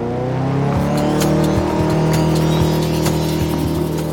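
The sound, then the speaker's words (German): A robot race car drives off with a loud, steady engine drone, its buzzing tone running throughout without a break. “Und so fuhren unsere Helden los in einem echten Roboter-Rennauto.”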